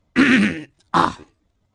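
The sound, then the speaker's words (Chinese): Throat clearing from a voice acting out an emperor clearing his throat, heard as two rough, voiced bursts: a longer first one and a shorter second one after a brief pause, fairly loud and with no speech. “他清了清嗓子”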